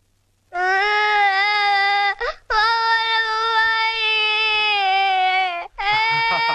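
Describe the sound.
A young child crying loudly in sustained, steady-pitched wails, with two brief breaks for breath between three long bursts of crying.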